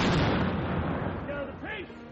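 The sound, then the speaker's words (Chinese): A 17th-century cannon firing at a yearly historical military display in Virginia, USA: a loud, broad blast with a long rumbling tail that slowly fades, and a brief voice near the end. “17世纪的火炮， 开火。”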